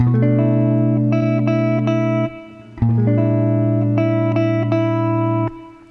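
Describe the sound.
Strummed guitar chords, with a pattern that picks the second string three times after each strum, played through twice with a short gap between. The chords ring bright and sustained, with no voices.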